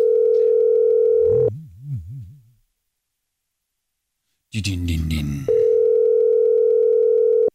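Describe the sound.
A steady, flat telephone dial tone sounds while a radio show calls a listener. It breaks off after about a second and a half for a brief voice, a silent gap and more talk, then returns unchanged.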